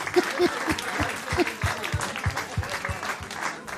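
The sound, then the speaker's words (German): Applause for a winner at a prize handover: many hands clap in a steady, fairly loud patter, with a few brief voice calls mixed in. “ein Riesenapplaus für dich. Und hier kommt dein Gewinn. Applaus”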